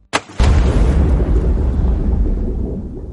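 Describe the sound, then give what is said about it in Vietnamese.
Loud crash like a big rock falling into water: a small sharp knock, then a sudden heavy booming impact that spreads into a long, rumbling roar and slowly fades over a few seconds. “Còn chưa hết câu, cây đó không xa ông vang lên tiếng động thật lớn, giống như có tảng đá bự rơi xuống nước.”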